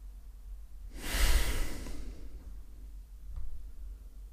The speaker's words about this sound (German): und noch einen dritten oder vierten tiefen Atemzug.